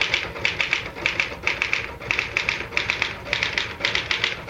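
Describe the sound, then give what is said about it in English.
Typewriter keys clatter in quick rhythmic clusters, each burst of sharp mechanical taps separated by brief pauses, fairly loud and with no voices. “Type until I tell you to stop.”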